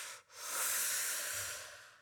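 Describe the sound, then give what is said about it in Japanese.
A person takes a single long, deep breath, a soft airy hiss that swells after a brief gap and slowly tapers off. “深呼吸、深呼吸。”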